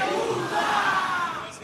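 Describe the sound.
Audience cheering and shouting for a chirigota group at a carnival contest semifinal, a dense, steady roar of many voices that fills the whole moment and eases slightly at the end.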